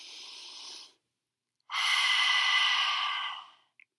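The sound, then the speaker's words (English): Deep belly breathing during a guided relaxation body scan: a short, soft airy breath, a brief pause, then a longer, louder rushing breath that fades away. No talk is heard. “You can take some really deep belly breaths. And then open mouth, exhale. Let's do that again. Deep breathe in.”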